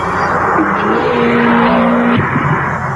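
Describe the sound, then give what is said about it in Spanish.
A Seat Ibiza Cupra rally car roars in a 1996 advert: a loud, sustained engine drone with a held tone that rises slightly, then cuts off abruptly near the end, with voices alongside. “¿No había terminado ya el rally? Debe ser un Cupra. Cupra, el Ibiza que viene de los rallies.”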